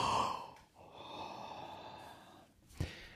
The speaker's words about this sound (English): All he did was yawn